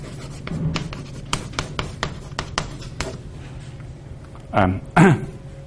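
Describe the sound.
Chalk or a pen writes on a board during a mathematics lecture, making a run of short, scratchy taps and strokes in an uneven rhythm.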